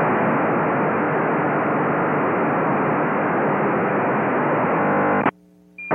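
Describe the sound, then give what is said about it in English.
A D-Star digital amateur radio signal comes through an ordinary FM receiver as a harsh, steady, buzzing roar of noise. It stays constant for about five seconds, then cuts off abruptly into a brief faint hum. “But if you tuned into a D-Star signal with an ordinary FM receiver, this is what you'd hear.”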